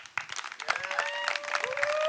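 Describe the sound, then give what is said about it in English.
An audience bursts into applause, with dense clapping that starts abruptly and builds into a full, sustained round, mixed with a few cheers and whoops. “I would love for you to all give Ellen and all of our activists a huge round of applause.”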